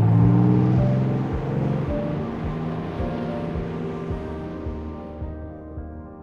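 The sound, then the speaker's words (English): Ship motors heard underwater, from a cruise liner or trawler: a low, steady droning rumble with regular faint thumping pulses, holding at an even level and thinning slightly toward the end. “Hearing the motors of other ships like a cruise liner or a trawler motor.”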